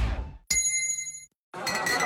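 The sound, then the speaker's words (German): A struck gong-like chime signals a drink break, a single bright hit whose ringing metallic tones hold for under a second before cutting off, with other noisy sounds just before and after. “Trinkpause. Der Gong.”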